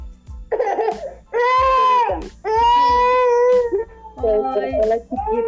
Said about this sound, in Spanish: Se despertó. Un segundo. Bueno, pues tuvimos que cortar esta grabación porque se nos despertó la bebé.